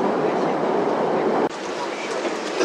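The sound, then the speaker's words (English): Beijing Subway Line 10 train noise: a steady, loud rumble that cuts out briefly near the middle, then carries on slightly lower. “Welcome to Subway Line 10. The next station is 太阳宫。Please get ready for your”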